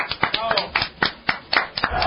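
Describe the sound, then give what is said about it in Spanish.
Applause after a comedy segment of jokes, heard as sharp claps in a fairly steady rhythm, with a voice briefly audible among them. “Este, un aplauso, por favor.”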